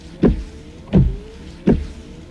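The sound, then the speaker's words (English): Rain-X wiper blades sweep back and forth across a car windshield, giving three evenly spaced swishing strokes with a low motor thump on each pass, heard alone. “Give up? It's Rain-X wiper blades.”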